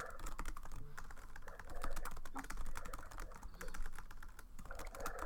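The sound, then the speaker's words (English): Typing on a computer keyboard: rapid, irregular keystrokes clatter quietly and continuously, with no voices. “I'm gonna type it to help you a little bit.”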